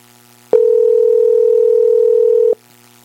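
A telephone ringback tone sounds while a call is being placed: one steady, unbroken electronic tone lasts about two seconds and stops abruptly, with quiet line hiss before and after.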